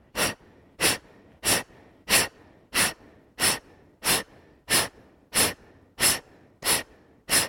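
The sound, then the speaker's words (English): Forceful exhalations from people in a group breathing exercise, blowing out hard: about twelve sharp, breathy whooshes in a steady, even rhythm, each short and loud with quiet gaps between them. “Exhale, exhale. Blow all of it out like a huge candle.”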